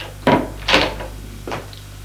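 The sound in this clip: A bedroom door opening as someone enters: three brief wooden knocks and creaks, the first two close together and the last softer, over a low steady hum.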